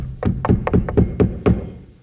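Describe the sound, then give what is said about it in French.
Traditional knocks sound on a theatre stage before the curtain rises on a performance of Numance, a run of several deep, hollow wooden thuds in an uneven rhythm. “Les trois coups. Et le rideau se lève devant les murs de Numance.”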